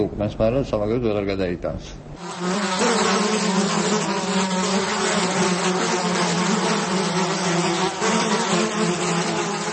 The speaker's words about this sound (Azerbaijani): Ağcaqanadlar kimi milçəklər də təbiət tərəfindən kütləvi qırılmır. Onlar müxtəlif xəstəliklərin daşıyıcıları sayılırlar.